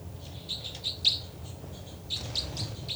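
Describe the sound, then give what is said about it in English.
Birds chirp in a recording, with faint, high, quick tweets in two loose clusters over a low background hum. “So, it's a recording of birds.”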